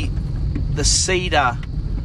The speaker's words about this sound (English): just going past a big truck at the moment on a narrow road